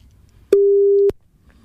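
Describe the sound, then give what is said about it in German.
A telephone ringing tone on an outgoing call: one steady mid-pitched beep lasting about half a second, heard alone against quiet. “Mal schauen, ob Jensen Bensen rangeht.”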